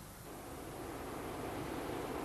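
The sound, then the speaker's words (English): Rushing water of a tidal bore wave surging up the Severn estuary, a steady broad roar that swells slightly at the start and then holds evenly, with no voices. “But sometimes it comes up the Severn estuary in a very special way. As a single tidal wave.”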